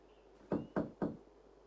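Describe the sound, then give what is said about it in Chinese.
Knocking on a door: three sharp, evenly spaced raps, fairly soft, each with a short wooden thud, with nothing else heard around them. “布朗姆先生等着，可是没人开门。布朗姆先生又敲了一遍”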